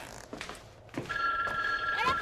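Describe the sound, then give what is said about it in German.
A telephone rings at home, a bright, steady electronic trill that starts partway through and carries on to the end, with a voice talking around it. “Telefon! Das Telefon. Moment.”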